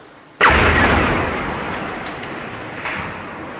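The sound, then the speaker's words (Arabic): Artillery shell explosion in the old city of Homs: one sudden loud blast followed by a long, slowly fading roar, with a smaller second burst near the end. “الله أكبر، قصف الهون المدفعية”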